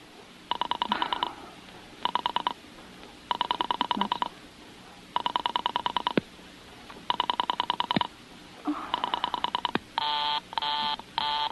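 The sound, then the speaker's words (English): A telephone number being dialed: six bursts of rapid clicking pulses separated by short pauses, ending with three short steady buzzing tones. No voices. “Why, you couldn't try to dial Murray Hill 40098 in the same sort of careless way.”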